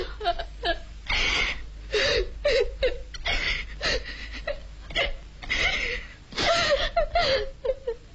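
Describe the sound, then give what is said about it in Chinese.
A person crying sorrowfully, with many uneven sobbing bursts and catching, hiccup-like breaths, moderately loud and broken by short pauses. “伤心地哭了起来。 这没什么，这有什么呢？别哭了啊！”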